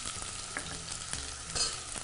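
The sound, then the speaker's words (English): Pieces of red onion frying in hot oil, starting to caramelize: a steady, even crackling sizzle with faint pops scattered throughout, and no voices. “And I'm going to take just these nice pieces of red onion. And just we're going to drop these right in this oil.”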